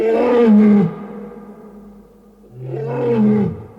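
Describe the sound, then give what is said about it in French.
Lion roaring at a wedding party on the Eiffel Tower in a 1966 stage recording, the animal emerging from a photographer's camera: two long, loud, deep roars separated by a quiet pause. “Grand Dieu ! Un lion !”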